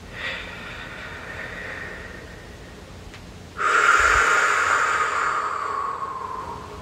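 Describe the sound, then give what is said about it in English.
A deep breath taken during a guided healing meditation: soft background hiss, then a sudden loud, breathy rush that holds for about three seconds and slowly fades. “So go ahead by taking a nice deep breath and closing your eyes.”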